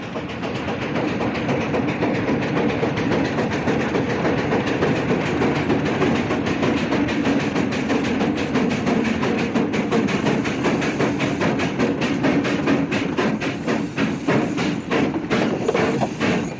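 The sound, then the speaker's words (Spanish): A loaded train crowded with standing men and their horses rumbles loudly and steadily as it reaches the middle of a town, with a rhythmic clickety-clack of wheels over rail joints throughout and no talk. “llegar a mitad del pueblo, el tren se detiene.”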